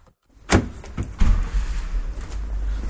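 A car drives away: a few sharp clunks like a door or window, then a steady low engine rumble that holds to the end without talk.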